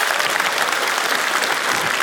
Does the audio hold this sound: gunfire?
no